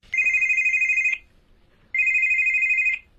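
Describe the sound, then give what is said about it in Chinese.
A woman's mobile phone rings just as she steps out of someone's home: two loud, bright electronic ringtone bursts of about a second each, separated by a short pause, with no talking. “乔丽娜刚走出李希涛的家门，她的手机就响”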